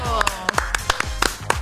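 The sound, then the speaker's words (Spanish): A studio audience on a television variety show claps in a brief burst. A handful of sharp, distinct claps ring out over a steady bed of voices. “Un aplauso, amigos.”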